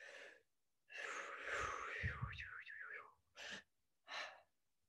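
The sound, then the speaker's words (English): Deep, gentle breaths come as one long breath with a wavering, sighing voiced edge, followed by two short, soft breaths. “I'm going to ask everyone to take 3 deep but gentle breaths. I'm going to do the same”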